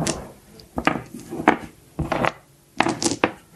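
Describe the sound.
Dice rattle and clatter across a table during a tabletop vampire role-playing game. Several sharp bursts of knocking, rolling impacts come in quick succession.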